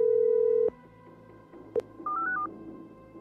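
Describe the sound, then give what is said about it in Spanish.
Telephone tones sound while a call is placed to a live call-in program. A steady dial tone cuts off, a single keypad beep follows, then comes a quick run of short stepped dialing beeps, all fairly faint. “Denos un momento, estamos llamando a Paulina Cruz, que ha estado marcando.”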